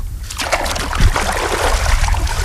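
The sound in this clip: Water trickling and running in a waterlogged farm field where crops have begun to rot, a continuous rushing, splashy wash with no clear pauses.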